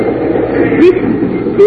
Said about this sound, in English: Oh, what a train.